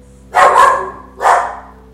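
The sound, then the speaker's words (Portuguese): Small dogs barking, two sharp yapping barks in quick succession, the first slightly longer and fuller than the second, fairly loud with no talk over them. “os cachorrinhos latindo aqui”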